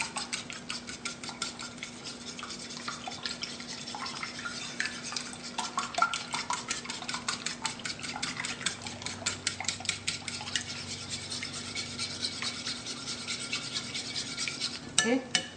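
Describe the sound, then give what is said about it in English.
Half and half being whisked by hand in a bowl with a whisk: a steady run of rapid, light metallic clicks and scrapes that keeps going without a break for the whole stretch, with no talking. “Or half and half, sorry, half a cup of half and half. Okay, just gonna use my whisk and whisk this really well.”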